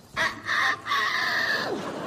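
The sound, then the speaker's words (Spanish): A rooster crows in a few harmonic syllables, the last one long and drawn out, ending in a brief falling tail. It is heard alone, with no talk. “¡Gallo!”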